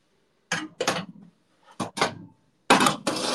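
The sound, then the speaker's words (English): A big cooking pot being grabbed and moved during meal preparation, heard as a few short clattering knocks and scrapes separated by quiet gaps. “Move that back over and let's grab that big old pot. Where are you? Come here.”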